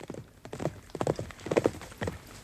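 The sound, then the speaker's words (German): Hoofbeats of a horse galloping toward a tent camp: many quick, uneven thudding clip-clops in a rapid driving rhythm, with no voices. “Und ich ritt im Galopp auf das Zeltlager zu.”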